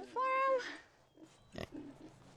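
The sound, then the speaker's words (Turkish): Pig squeals and grunts on a farm: a loud, high, drawn-out squeal at the start, then softer, scattered grunting noises. “Domuzcuk, domuzcuk, domuzcuk. İçeri gir. Şu domuzlara bak.”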